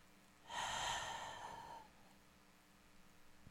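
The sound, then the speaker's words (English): A single long, forceful exhalation pushing all the breath out during a meditation breathing exercise, rising quickly to a breathy rush, then tapering off over about a second and a half before quiet. “Make the conscious shift from passive to active. Push all the breath out.”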